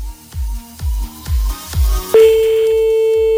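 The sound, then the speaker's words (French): An outgoing telephone call rings. A few low thumps are followed by a steady, single-pitched ringing tone that holds loud and unbroken to the end. “Hop là, c'est parti, on en appelle encore un autre, Nancy, ça va bien finir par décrocher chez quelqu'un.”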